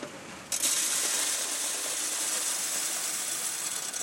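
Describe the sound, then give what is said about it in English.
Clattering of a coin mint machine in Berlin dropping shiny new euro coins into a sorter. A dense, steady metallic rattle begins abruptly after half a second and runs on loudly to the end. “At a coin mint in Berlin, a machine spits shiny new euro dollars into a sorter.”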